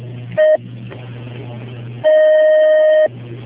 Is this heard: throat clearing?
no